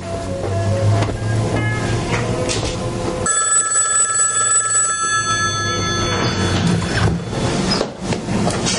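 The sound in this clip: A telephone rings in the kitchen of a family home in Atlanta. A sustained, bright electric ring enters partway through and holds steadily over a dense, noisy background.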